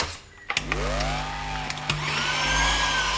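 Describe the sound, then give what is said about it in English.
An electric mixer fitted with dough hooks whirs as it kneads dough with added butter. Its continuous motor whine drones over a low hum, its pitch bending up and back down, with a few small knocks and no talk. “And these are the hooks for dough. So now we're going to put in some more butter, and then I'm going to knead it with the squiggly bits.”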